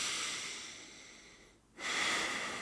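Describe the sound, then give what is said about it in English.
Breathing in and out through the nose during a calm relaxation exercise: a steady airy hiss of breath, briefly dropping to near silence before a fuller, louder exhale resumes, with no talking. “you want to breathe in through your nose. Just your nose and then out through your nose.”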